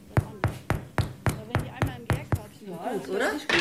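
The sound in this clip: Knuckles rap on freshly baked bread loaves to test whether they are done, making a quick, evenly spaced run of hollow, dull knocks. A voice speaks briefly after the knocking stops.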